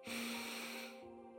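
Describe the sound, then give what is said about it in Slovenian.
Deep breath drawn in through the nose during a slow relaxation breathing exercise: a single soft, airy intake lasting about a second, strongest at the start and tapering off quietly. “Še enkrat, vdih skozi nos,”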